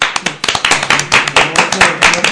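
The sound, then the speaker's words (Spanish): Audience applause rises in a ragged burst of hand claps, loud and uneven, with individual sharp claps standing out over a steady crackle for a couple of seconds. “Un aplauso.”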